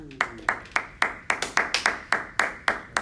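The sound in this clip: Sharp hand claps, sounding like one person clapping, repeat at a slow, fairly steady pace. Each clap is a crisp, bright slap with a short decay, and there are many in a row.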